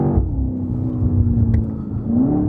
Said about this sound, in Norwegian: Nå tar jeg bare en motorveirampe av og på for moro skyld, ja.